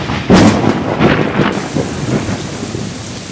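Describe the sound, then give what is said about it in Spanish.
Thunder rumbles across a valley between mountains as heavy rain pours down. A loud booming burst near the start gives way to a steady, dense hiss of downpour that continues with softer rolling thunder beneath. “un trueno hizo retumbar el valle entre montañas en el que ahora nos encontrábamos, y segundos después una tupida lluvia descargó sobre nosotros.”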